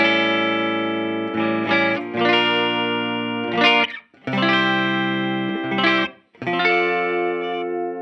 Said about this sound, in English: The bridge.